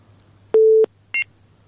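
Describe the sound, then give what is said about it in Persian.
A phone line tone sounds after a caller's call is cut off: a steady beep lasting about a third of a second, then a shorter, higher two-tone beep over a faint low hum. “بله، فکر میکنم که تماسشان قطع شد. اینا بسیار عجله داشتن، خود معرفی هم نکردن، فقط گفتن تبریکی میگم و تمام.”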